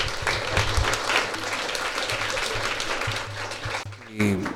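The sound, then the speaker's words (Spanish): Audience applause closing a book presentation for an oral history work; dense, continuous clapping from many hands over a low hum, with a voice briefly surfacing near the end. “Y con este aplauso estamos terminando la transmisión especial de la presentación del libro Una historia oral de la infamia de John Gibler”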